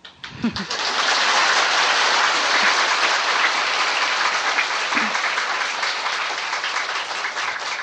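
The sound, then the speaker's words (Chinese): An audience claps during a spiritual lecture. A few scattered claps quickly swell into dense, steady, loud applause that holds evenly to the end. “你们要拍手就拍，干嘛在那里是我一直等你们”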